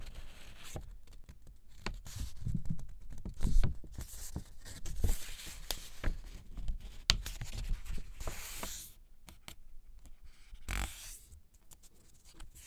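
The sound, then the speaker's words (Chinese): A sheet of paper folded in half short edge to short edge while making a paper airplane, with many soft crinkles, rustles and scraping creases, close and quiet, with no voices. “对折之后就可以把它打开，接着换到的是短边对短边的对折。”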